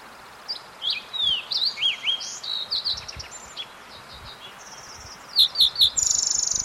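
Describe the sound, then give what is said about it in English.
A fox sparrow sings in a bathroom, giving a series of clear, high, sliding whistled notes in short phrases, followed by a few louder notes and a fast, buzzy trill at the close. “fox sparrow singing in the bathroom”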